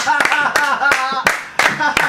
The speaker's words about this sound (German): Das Live-Publikum tobt. Irgendwer hat außer Takt geklatscht.